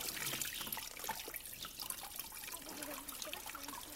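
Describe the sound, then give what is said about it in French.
Water running from a natural spring-fed fountain that never dries up, near Monsalès in France: a faint, steady trickle and splash that continues without a break. “c'est une source tout à fait naturelle et qui ne tarit pas. Oui ? Tarir, ça veut dire que ça ne coule plus. Il y a toujours de l'eau, toujours. La fontaine coule tout le temps.”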